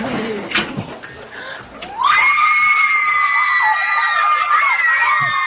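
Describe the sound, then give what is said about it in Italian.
Loud, sustained high-pitched screaming with bright, wavering tones bursts out after a couple of seconds of rougher crowd noise and holds steady to the end. “Quindi anche qui ci sono i due urli, quello delle donne che avranno visto le scarpe, immagino, con gli uomini le birre,”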